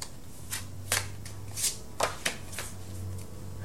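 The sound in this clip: A deck of cards is shuffled and a card is drawn, with a few quiet, crisp riffling and snapping bursts spaced over a soft background and no talking.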